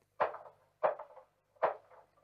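Three knocks on a door, each a sharp hollow rap with a short resonant decay, spaced slightly unevenly with quiet gaps between.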